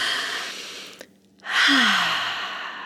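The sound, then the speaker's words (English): A deep, relaxing breath taken before pumping or nursing: an audible breath in, a brief pause, then a long, loud exhale that carries a short voiced sigh falling in pitch. The breath is alone, with no talk. “Ready, everybody? Take a nice deep breath.”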